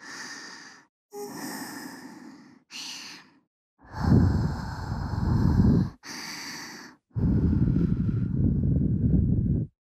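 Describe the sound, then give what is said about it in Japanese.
Soft breaths blown close into the ear, a series of airy, whooshing exhalations with short gaps between them, the later ones longer and fuller. “ああ、お耳ふうふうされちゃってる。”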